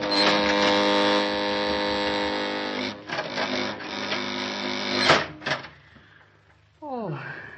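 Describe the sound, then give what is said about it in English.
Radio drama effect of an elevator car coming down its shaft: a loud, droning electric hum that breaks off into a few heavy clunks and knocks. A voice is briefly heard at the end. “Hey, the elevator's coming down on us. We can't make it.”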